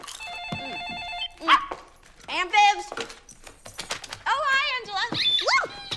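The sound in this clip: A telephone rings in a house with a trilling electronic tone at the start, and a small lap dog then yaps and barks several times.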